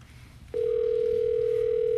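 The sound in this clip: A telephone tone sounds on an outgoing call. A steady electronic tone starts about half a second in and holds at one even pitch to the end, with no talk over it.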